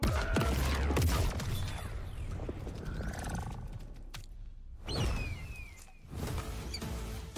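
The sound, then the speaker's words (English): A sonic boom special attack in a fighting video game erupts as a loud, dense wash of roaring, crackling effects that holds almost throughout, dipping briefly twice before surging back. “Go time. Activate Sonic Boom!”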